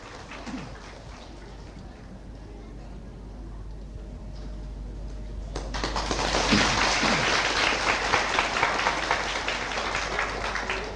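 An audience applauds at a prize-giving ceremony: after a quieter stretch, dense, steady clapping suddenly swells up and continues loud and evenly to the end.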